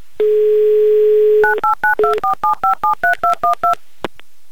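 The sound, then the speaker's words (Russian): A telephone number is dialed by touch-tone. A steady dial tone hums for over a second, then gives way to a rapid, evenly spaced string of short two-tone beeps, and a single faint click follows after a pause. “Поэтому я набираю ваш номер.”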